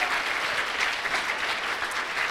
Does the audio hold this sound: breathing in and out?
no